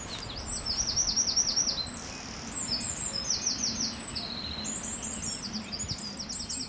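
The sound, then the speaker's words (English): High-pitched bird song, a very thin, high voice: several phrases of rapid repeated trilled notes rise over a steady low background rumble. “It's a really, really high-pitched one, so it's one of the first bird songs that you actually really sadly lose as you get older and you stop being able to pick up those higher frequencies.”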